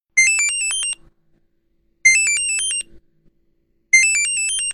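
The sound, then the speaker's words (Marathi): A phone ringtone for an incoming video call plays three identical bursts of bright, high electronic chime notes, each under a second long, repeating at a steady two-second rhythm with silence between. “अरे सुखदाचा video call. अरे घे ना.”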